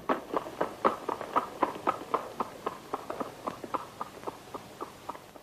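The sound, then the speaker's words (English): Hooves of a lopsided zebra trot along a street in a faint, steady clip-clop of many evenly spaced steps, heard alone. “A lopsided zebra trots up behind him and proceeds past him, heading down the street.”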